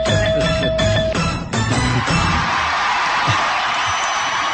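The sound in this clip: A game-show studio audience cheers and whoops after a correct answer. The crowd makes a loud, sustained roar of mixed yells.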